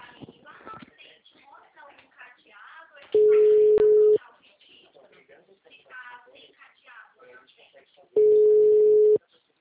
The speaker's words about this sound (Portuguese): O número está ocupado.